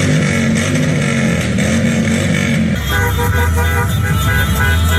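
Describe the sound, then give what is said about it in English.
Cars, vans, pickup trucks and motorcycles honk nonstop in a Mexican Independence Day street celebration in downtown Chicago at night. The horns and engine noise form a loud, dense, continuous blare that shifts in tone partway through. “What you're hearing are the sounds of people in cars, vans, pickup trucks, and motorcycles at Michigan and Wacker last night.”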